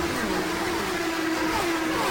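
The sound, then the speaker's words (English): Race car engines roar at the start of the 79th Indianapolis 500, a steady sustained drone holding a fairly even pitch with slight wavering, fairly faint and without voices. “Here they come. The green flag is out and the 79th Indianapolis 500 is underway.”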